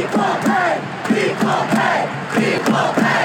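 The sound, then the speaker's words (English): A large crowd cheers and chants in Lyon, France, after the U.S. women's 2-0 World Cup final win over the Netherlands, a loud, continuous roar of many voices that swells in rhythmic bursts. “That's the crowd in Lyon, France, after the U.S. women won their record fourth World Cup yesterday by a score of 2-0 over the Netherlands.”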